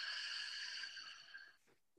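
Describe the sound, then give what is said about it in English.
A deep inhale through the nose during a yoga breathing exercise, a steady soft hiss lasting about a second and a half, followed by the quieter start of an exhale through the mouth. “Take a deep breath in through the nose and a full exhale out your mouth.”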